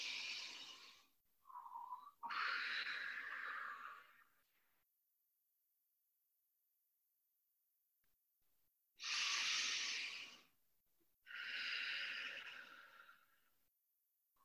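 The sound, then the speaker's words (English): Slow, deep breathing during a guided breathing exercise: several loud, airy inhales and exhales, with a long silent pause in the middle and no talk. “Continuing to breathe really deeply. Two more breaths like that.”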